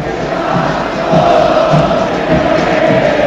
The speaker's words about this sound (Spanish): Escuchá. El público de River,